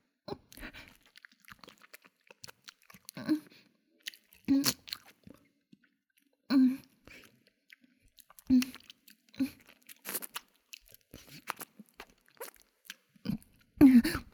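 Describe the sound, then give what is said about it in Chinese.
Chewing and crunching while eating a boxed rice meal that smells fishy, with many short bursts of biting and mastication separated by quiet pauses. “这盒饭 为什么这么腥啊？我吃，我吃，不管了。”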